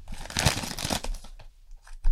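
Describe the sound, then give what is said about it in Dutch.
Wrapping paper being torn and crinkled as a gift, a brush with suction cups, is unwrapped: a few bursts of rustling and ripping that fade into quieter crinkles, followed by a final sharp rustle. “Je mag het uitpakken en omschrijven wat je erin ziet zitten.”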